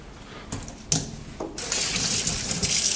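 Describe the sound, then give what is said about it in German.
Tap water running as hands are washed during dim sum preparation. A few short clicks and knocks come first, then a steady, full hiss of flowing water. “Müssen wir einmal ganz kurz die Hände waschen.”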